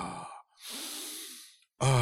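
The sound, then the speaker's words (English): A person doing a breathing exercise, pushing one long, airy breath through the mouth for about a second, with short voiced sounds just before and after it. “coyote breathing, you know, which is like inhaling and exhaling, like inhaling and exhaling through the mouth and going,”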